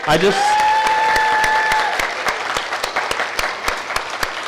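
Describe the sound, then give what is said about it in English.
A church audience applauds a group called The Forge, dense clapping that starts full and loud, then thins into sparser, separate claps toward the end, with a brief sustained vocal cheer near the start. “if you guys could just give an applause for The Forge,”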